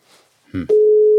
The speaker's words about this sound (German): Oh, wie schön. Ich höre ein Amt.